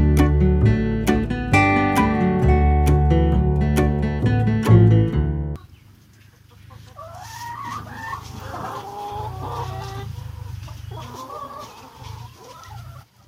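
Hens cluck inside a henhouse during a thunderstorm, an irregular run of fairly soft clucks and chatter. It follows a loud opening stretch of plucked, rhythmic music.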